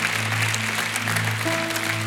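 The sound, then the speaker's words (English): A church audience applauds to welcome a woman into the family of God, with steady clapping throughout over sustained musical tones. A new, higher note joins partway through. “Can we put our hands together and welcome that lady to the greatest family, the family of God?”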